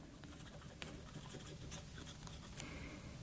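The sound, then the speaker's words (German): A pen scratches across a postcard as someone writes a short note by hand. The strokes are faint and irregular over a quiet background hiss, with no talk. “Ich sollte lieber gleich mal die Karte schreiben. Liebe Mom, gut angekommen.”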